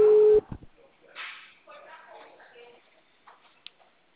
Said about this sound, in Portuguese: Agora que voltou o discador aqui, peraí.